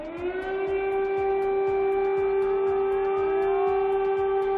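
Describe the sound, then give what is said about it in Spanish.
Air raid siren sounding in Kyiv: a loud, steady wailing tone with layered harmonics that holds without a break through the whole stretch, with a low rumble beneath it. “Sirena antiaérea que ha vuelto a sonar en los últimos minutos. Es la señal de alerta para que la población se refugie”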